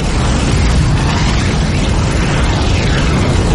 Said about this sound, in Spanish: El animal abre la boca. En su garganta se forma una bola incandescente. Escupe fuego sobre el trono.